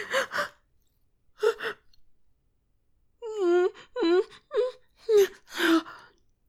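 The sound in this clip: A woman's soft moans and breathy gasps, a few short breaths at first, then a run of wavering, rising and falling moans.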